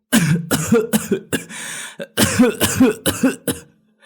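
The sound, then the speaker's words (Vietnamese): A feverish, sick man coughing in a rapid series of many harsh, loud coughs in short clustered bursts, with a brief strained breath between them. “ho lên khụ khụ”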